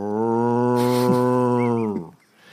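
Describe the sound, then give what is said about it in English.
A human voice imitates the deep, mooing toll of the bell of the Palazzo della Signoria, a bell nicknamed the cow: one long, steady, low moo of about two seconds that fades out at the end. “the bell of the Palazzo della Signoria was called the Vaca, the cow, because it made a deep mooing sound. Oh, apparently, gotcha. They ring the bell and go,”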